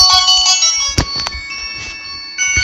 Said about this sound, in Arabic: بتاعك ايه؟ ده تلفون بتاعي انا. بتاعك انت.